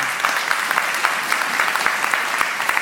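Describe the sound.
Applause from a church audience welcoming a preacher: steady, dense clapping from many hands, even and loud throughout.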